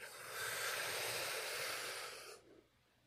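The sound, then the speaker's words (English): One long, deep breath during a guided positive-mindset relaxation exercise, heard alone as a soft, airy hiss that holds steady for about two seconds, then fades quickly into quiet. “So let's go ahead and take one more deep breath.”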